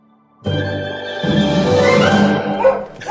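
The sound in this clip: A small female dog whines and yips in a drawn-out, fairly loud vocalization with a wavering pitch, heard on its own.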